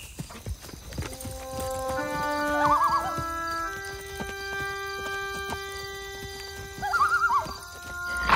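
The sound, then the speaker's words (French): Horses gallop with rhythmic clip-clop hoofbeats throughout, and two high, wavering whinnies cut through the steady pounding. “Ils avaient galopé toute la journée et à la tombée de la nuit, ils étaient tout près d'une ville.”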